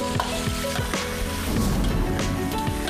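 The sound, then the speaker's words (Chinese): Loud, steady sizzling of fresh free-range chicken pieces frying in a pan. A dense crackle of hot oil runs continuously with no voices. “新鲜土鸡切块洗净煎炒，加入火腿以文火熬煮”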